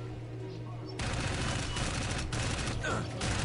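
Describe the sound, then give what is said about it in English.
Gunfire in the video game Dark Void bursts in after about a second of quiet, then continues as dense, rapid volleys of shots at a loud, even level to the end. “Kevin, you're getting shot. No. We're playing Dark Void right now.”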